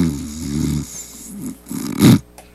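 A man snoring: a few rough, throaty rasps in irregular bursts, the last one the loudest and noisiest.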